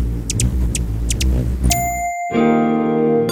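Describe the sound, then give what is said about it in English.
A hummingbird sound effect: several short, high chirps over a low rumble, then a bright single ding and a fuller sustained chime chord that rings to the end. “That's the sound of a hummingbird pollinating our world and making it a better place.”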